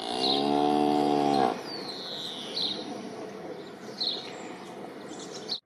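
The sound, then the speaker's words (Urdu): A cow returning from grazing in the forest gives one long, loud, low moo lasting about a second and a half. A few faint, high bird chirps follow over quiet outdoor background noise. “سامنے سے گائے آ رہی ہے کیسی اچھی صورت ہے جنگل سے چر کر آ رہی ہے”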